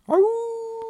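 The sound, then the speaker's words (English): A human voice imitates a coyote howl: one brief howl that rises quickly, then holds a steady tone for most of a second before cutting off. “somewhere in the distance, maybe you hear a coyote howl.”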